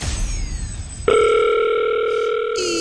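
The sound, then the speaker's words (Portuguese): A telephone ringing tone on an outgoing call from a radio studio: after about a second of swooshing noise, a steady, clear electronic tone sounds and holds to the end, with a brief shift near the close. “Já chama. Eu gosto deste som assim, a chamar.”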